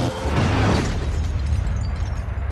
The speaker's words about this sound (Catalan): Arma elegida, rayo de plasma.